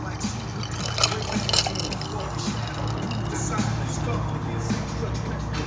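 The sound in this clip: A splash of drink is poured, giving a steady liquid trickle that stays fairly faint beneath people talking and a constant low background hum.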